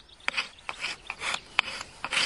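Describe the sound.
Rasping scrape of a knife's back edge drawn over wood, planing off fine shavings like sawdust for fatwood kindling; a run of short, dry strokes in uneven rhythm, with no voices.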